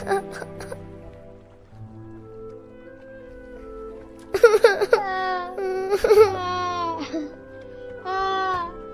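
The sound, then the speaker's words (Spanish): Orphaned children crying and wailing, several bursts of high, quavering sobs and drawn-out wails that waver in pitch, set over a low, steady hum. “Se echa a llorar también Matías. Y todos participan de este dolor. Pero de entre el rumor de las distintas voces y el lamento de los huerfanitos, se alza la dulce voz de Jesús.”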